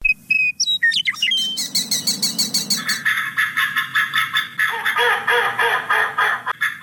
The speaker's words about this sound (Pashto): د کابل ښار په لمن کې کولی حشمت خان هغه سیمه ده چې په پسردی کې هر کال له دریو تر څلور سوه ډوله مرغان دلته دمه کوي.